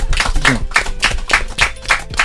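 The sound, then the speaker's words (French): Rhythmic clapping at a live show, a steady, evenly spaced run of sharp claps that stays fairly loud throughout, with a brief tonal sound near the start. “On n'a qu'à un peu applaudir pour ça.”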